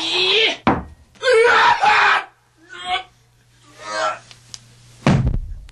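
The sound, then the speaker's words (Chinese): A stone slung at a giant's forehead lands with a heavy, sharp thunk near the end. An earlier thud comes first, and loud, wordless vocal cries fill the gaps between. “大卫甩出去的石头正不偏不倚地打中了巨无霸的额头”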